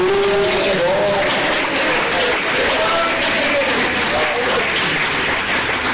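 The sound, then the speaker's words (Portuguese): A Portuguese-speaking church audience claps together to glorify Jesus during a service, a dense steady patter of hands with voices rising and falling over it. “glorificar Jesus com palmas, ele merece”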